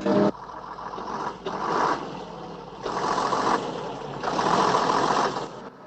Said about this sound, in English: The big red bus labours on up the mountain road with Cyril